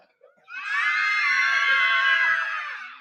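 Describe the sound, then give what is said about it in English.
A loud, sustained high-pitched scream rings out alone for over two seconds, holding a steady pitch before tapering off at the end. “A woodcutter was in the wood. He heard a loud scream”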